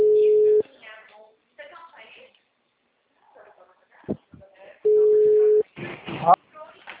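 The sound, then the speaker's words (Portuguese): An outgoing telephone call rings to a client, heard as two long, steady ringback tones several seconds apart, with a person talking quietly in the gap between them and more talk after the second tone. “eu vou até ligar para ele, porque estava dando não elegível.”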